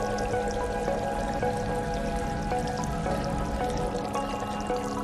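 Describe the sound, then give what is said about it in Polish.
A bucket filling with water: continuous splashing and pouring with scattered small drips and clicks, steady in level throughout. “Wiaderko? I co ja mam z tym zrobić? Czekajcie, mogę wody sobie nabrać? To się napełnia?”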